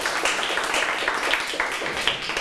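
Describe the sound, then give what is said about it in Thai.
Students clapping in a classroom for a group about to present: many quick claps at moderate volume, forming a continuous patter with no clear pauses. “ปรบมือให้กับกลุ่มที่5ค่ะ”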